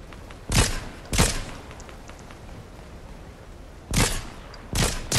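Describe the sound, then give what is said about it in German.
Gunfire in the video game Fortnite: four sharp, loud shots stand out against a quiet background, arriving as one pair early and another pair near the end. “Er hat geschossen.”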